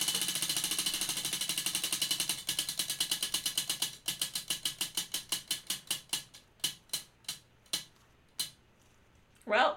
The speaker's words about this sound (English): Should I spin the drink wheel again?